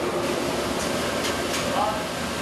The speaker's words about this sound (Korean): 이게 탄력이라고 통돌이 세탁기 생각하시면 되는데 원심력에 의해서 기름이 쫙 빠져가지고 기름은 이쪽으로 분리가 돼요.